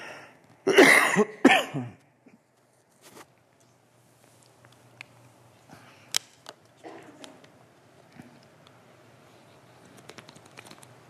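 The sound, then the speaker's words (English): A speaker at a pulpit gives a couple of loud, harsh coughs in quick succession near the start, followed by quiet rustling and small handling noises. “I think I've become allergic to this pulpit or something. It's like I can't, I can hardly get up here without coughing.”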